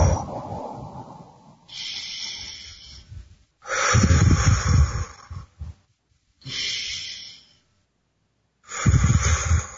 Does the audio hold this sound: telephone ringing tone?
no